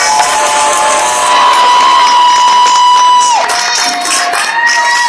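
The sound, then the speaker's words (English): A large crowd chants "cheesecake" in unison amid loud cheering, one long sustained vocal tone that drops in pitch partway through, followed by scattered shouts. “All these people are going to chant cheesecake.”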